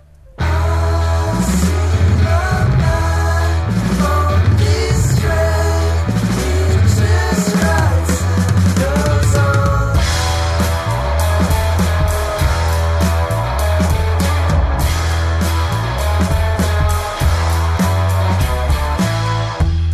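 A full pop band arrangement plays without a break, loud throughout, with a steady rhythmic pulse, repeated low bass notes and dense bright upper layers.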